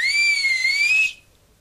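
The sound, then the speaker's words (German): A person whistles to call two children out of their house, a single sustained high note held steady for about a second before it stops cleanly, with no voices. “Und Flip pfiff die beiden Taggart-Kinder Gina und Rolf heraus.”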